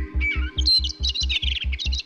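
Blackbird song: bright, warbling, fluty phrases carried over a steady, regular low pulsing throb that repeats throughout.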